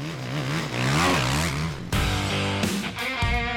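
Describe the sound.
Racing engines roar and rev hard at the start of a large sand race. The loud, dense engine noise swells, then drops sharply before surging again with overlapping engine tones.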